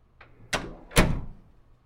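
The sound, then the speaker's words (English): A door to a playroom opening: a faint click, then two heavier knocking thuds, the last one the loudest, followed by silence. “This is the door to my sanctuary, our playroom.”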